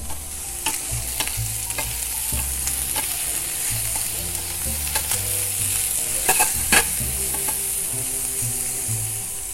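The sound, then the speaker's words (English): Mushrooms sizzle loudly in a hot pan while a utensil stirs them, and the stirring adds many sharp scrapes and clacks over the steady frying hiss. No one speaks. “every now and then, give it a nice little stir.”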